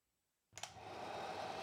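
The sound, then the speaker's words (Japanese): A hair dryer drying hair clicks on after a brief silence and settles into a steady, even rushing whoosh of blown air that holds through to the end. “ちゃんと髪を乾かしてあったかくして寝ましょうね。”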